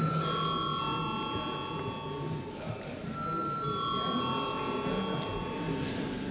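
A bell rings in the Latvian parliament chamber to call members to a vote. Faint, steady electronic tones sound in two stretches over a low background murmur.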